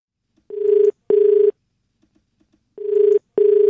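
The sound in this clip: Telephone ringing for a radio phone-in call: two double rings, each made of two short, steady buzzing tone bursts, with a silent gap between the pairs.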